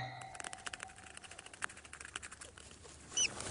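Rats in a wire cage make a constant patter of tiny scrabbling scratches, with one brief, high squeak near the end.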